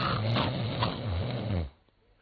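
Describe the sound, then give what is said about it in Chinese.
A man's voice imitating the snoring of a man lying on a kang bed, a low, rumbling, wavering snore held for under two seconds before dropping to near silence. “躺在炕上，我先打我的呼噜”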